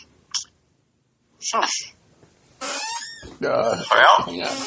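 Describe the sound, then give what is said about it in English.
A squeaky chair creaks alongside a cat that wants in on a phone call: a brief squeak, a pause, then a few longer high, wavering squeaks and cries that grow louder toward the end. “It's my squeaky chair and my cat who wants to be in on the phone. He wants to be on my phone call as well.”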